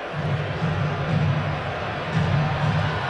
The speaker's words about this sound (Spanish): El público, ustedes lo escuchan, José, José, José.